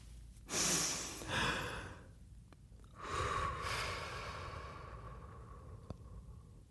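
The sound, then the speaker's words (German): Slow breathing in a relaxation exercise, with a few soft, airy breaths and a long, drawn-out exhalation that fades away gradually. The breaths are faint and heard alone. “drei Sekunden einatmen, sechs Sekunden ausatmen. Ja, also genau, immer, immer die Ausatmung verdoppeln, das kann man sich, glaube ich, gut merken. Also Richtig. Also wir machen es nochmal.”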